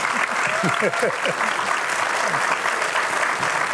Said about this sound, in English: I want you to welcome Vera and Clayton Dyess to Life Today. Would you give them a big welcome?